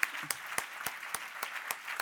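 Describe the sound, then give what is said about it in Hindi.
Audience clapping in unison to welcome a pastor at a church gathering: about eight sharp, even claps in a steady beat, with no talk over them. “तो एक बार welcome के लिए अपने pastor भाई के लिए हम ताली एक बार बजा सकते हैं”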